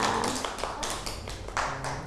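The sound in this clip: Children clapping for a classmate in a classroom: a string of quick, uneven claps at moderate loudness, continuing throughout.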